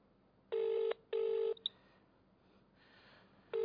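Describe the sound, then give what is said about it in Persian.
Telephone keypad dialing tones from a phone calling a television channel: three loud, steady beeps separated by pauses, with the last one starting just as the sound ends. “ما هم الان داریم زنگ میزنیم”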